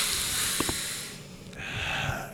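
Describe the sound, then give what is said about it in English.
People sniff and breathe in through clogged noses, a hissy nasal rush with a couple of short, sharp snorts early on, then a softer stretch of breathy air. “Everybody breathe in. Let them hear your clogged noses.”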